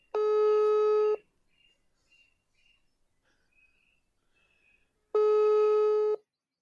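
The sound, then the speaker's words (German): WhatsApp call ringing tone: two long, even, buzzy rings about four seconds apart, with only faint chirps in the quiet gap between them. “Es ist ähm, ein WhatsApp-Anruf und dann ist das immer dieses dreimal und dann der letzte ist kurz.”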